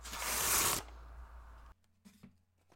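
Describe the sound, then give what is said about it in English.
An envelope is torn open with a loud, rough paper rip lasting under a second. Quieter rustling follows, then a few soft taps and clicks. “So, should we open up our envelope for today?”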